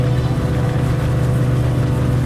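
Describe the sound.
A boat engine idles as the vessel enters a sea cave. It makes a loud, steady low drone with a constant hum and no pauses, and nobody talks.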